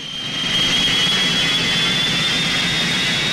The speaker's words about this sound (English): he lies himself down on the tarmac and covers his ears against the shriek of the engines